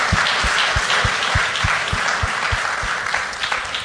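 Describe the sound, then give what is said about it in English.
Audience applause welcoming a panelist onstage, a steady dense wash of clapping that holds at an even level for about four seconds. “Let's put our hands together and welcome John.”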